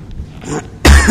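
A cough and throat clearing: quiet, scratchy throat noises lead into a loud, harsh burst near the end.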